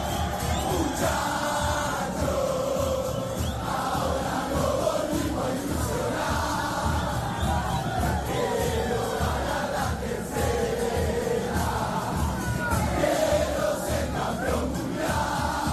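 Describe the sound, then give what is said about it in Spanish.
A dense crowd roars without pause in the streets of Buenos Aires, Argentina, during a football occasion: a steady mass of voices and cheering, loud throughout and without clear breaks. “Bueno, así suenan ahora mismo las calles argentinas. Así suena Buenos Aires.”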